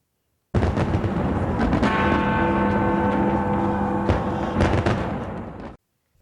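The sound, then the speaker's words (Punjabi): New Year's fireworks over Sydney Harbour: a loud, continuous rumble of overlapping booms and crackle that holds for about five seconds, then cuts off abruptly. “ਇਹ ਆਤਿਸ਼ਬਾਜ਼ੀ Sydney ਵਿੱਚ ਨਵੇਂ ਸਾਲ ਦੇ ਪਹਿਲੇ ਦਿਨ ਦੀ ਸ਼ੁਰੂਆਤ ਦਾ ਪ੍ਰਤੀਕ ਹੈ ਸਿਡਨੀ ਦੀ ਬੰਦਰਗਾਹ ਉੱਤੇ ਹਰ ਸਾਲ 10 ਲੱਖ ਜਾਂ ਇਸ ਤੋਂ ਵੱਧ ਲੋਕ ਇਸ ਆਤਿਸ਼ਬਾਜ਼ੀ ਦਾ ਨਜ਼ਾਰਾ ਦੇਖਣ ਆਉਂਦੇ ਰਹੇ ਨੇ”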